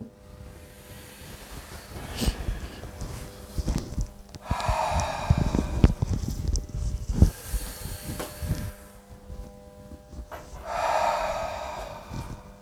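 Deep, forceful breaths from a guided breathing exercise round: a few long, airy inhales and exhales with snort-like nasal bursts, fairly faint and with no voices.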